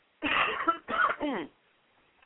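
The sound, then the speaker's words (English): Coughing from an adult who pauses mid-sentence: three harsh, throaty bursts in quick succession, loud and close together, followed by quiet. “Excuse me, I need to cough.”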